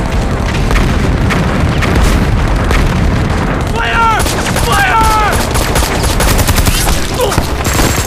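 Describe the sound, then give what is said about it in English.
Heavy explosions as vehicles and heavy weapons are blown up: a loud, unbroken barrage of booms and crackling blasts with a deep rumbling low end, and shouting voices breaking through partway. “The rest of you, empty the shells, blow up all the vehicles and heavy weapons.”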